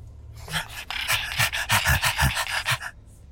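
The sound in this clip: A small dog pants in quick, rhythmic, breathy puffs. The panting is fairly loud and steady, with no talk.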